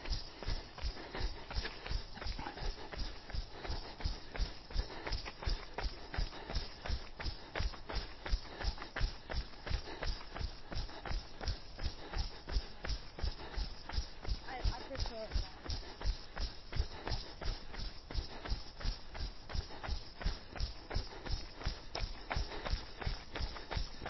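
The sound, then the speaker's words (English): Jogging footsteps during a fartlek run: many even, evenly spaced footfalls keep a steady rhythm throughout. “Okay, back to a jog.”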